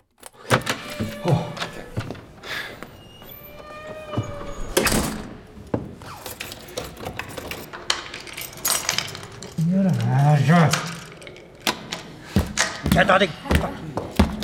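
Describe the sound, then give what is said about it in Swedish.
Someone locked in rattles and clunks a door lock, trying to get out: many sharp metallic knocks, jangles and thuds in uneven bursts, with a voice talking at moments. “Jag kommer inte ut! Har de låst in mig? Vad är det här för jävla lås?”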